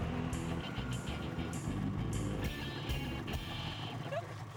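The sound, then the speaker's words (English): Snowmobiles race with a steady engine drone that holds at a low, even loudness throughout, with a faint higher whine over the rumble. “Well, snowmobiling's basically like riding the wave runners back home. It's pretty easy once you get used to it. You guys ready for another race?”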